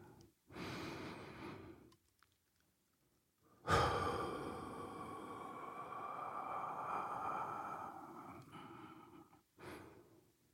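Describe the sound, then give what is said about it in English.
A slow deep breath: a soft, breathy inhale, a short pause, then a long audible exhale that carries on for several seconds before fading, followed by the start of another breath. “let's take a deep breath.”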